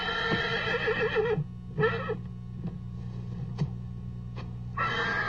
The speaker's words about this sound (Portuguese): Faça o que quiser, mas não aposta nesse cavalo. Por que não? Tem algum problema nos olhos. Ele é cego. Como é que coloca um cavalo assim para correr?